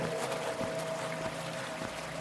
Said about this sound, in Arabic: سامع المية؟ بص على سير المية ازاي سريع كده.